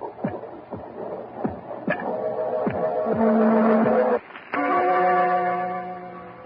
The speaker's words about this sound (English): And that noise you hear is his heart. The beating of his telltale heart.